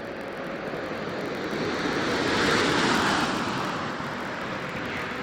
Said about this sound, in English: the last American space shuttle to orbit Earth, Atlantis, returned for its final landing at the runway at Kennedy Space Center